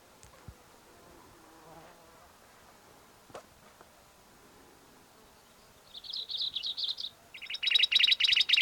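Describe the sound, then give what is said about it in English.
Black-throated gray warbler song: high, buzzy notes after several quiet seconds. A short buzzy phrase comes first, then a louder run of rapid buzzy notes, with no voices. “Black throated gray warbler in there.”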